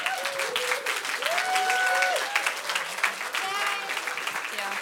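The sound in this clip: A church audience stands and applauds visiting guests with steady, dense clapping that carries on for the whole stretch while voices talk over it.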